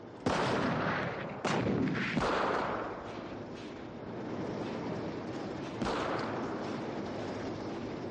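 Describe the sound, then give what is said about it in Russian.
Tank shells explode near trenches and anti-tank guns open fire in a war film battle scene, with a few sharp, heavy blasts punching through a continuous loud roar of rumbling battle noise. “Выпущенные танками снаряды рвутся в нескольких десятках метров от окопов. Поднявшаяся бурая пыль ухудшает видимость. Бронебойные расчеты открывают огонь.”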